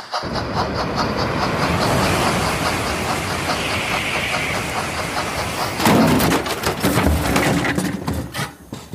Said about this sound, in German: Und da überholt ebenfalls auf Gleis 3 der Transrapid 3010 von Shanghai Hauptbahnhof nach Stuttgart 21.